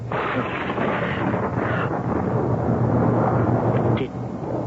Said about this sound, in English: Did you see and hear that? See what? Above the Capitol. All shimmering with fire about him like a halo and great forked bolts of lightning shooting from his hands.